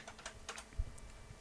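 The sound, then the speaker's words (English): Typing a search on a computer keyboard makes a faint, uneven run of light keystroke clicks, with one slightly heavier tap in the middle. “Let me just type it in a search here.”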